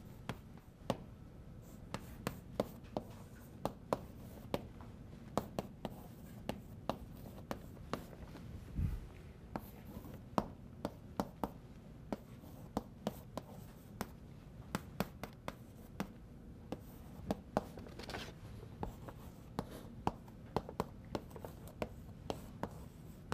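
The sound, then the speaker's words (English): Equations are written on a board during a lecture on parasite models and the evolution of virulence: many faint, scratchy strokes and sharp taps are scattered irregularly over a low, steady background hum. “R naught, and it's going to be in this model that I'm writing down now.”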